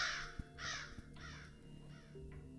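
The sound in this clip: A flock of black crows caws in a series of about five harsh, rasping calls, quite faint and with no voices.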